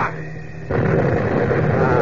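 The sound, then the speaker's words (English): A bomb bursts as it strikes a bomber plane: after a low steady drone, a sudden loud roaring blast breaks in and keeps rumbling to the end. “this bomb ought to explode just as it hits that bomber”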